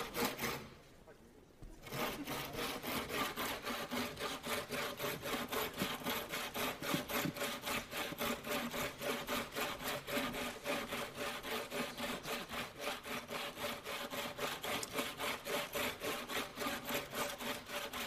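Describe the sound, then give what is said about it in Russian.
A hand saw cuts through wood on a stage, its many rapid, even back-and-forth strokes rasping in a steady rhythm after a short quiet gap at the start. “Девушка, вы хотели пилить?”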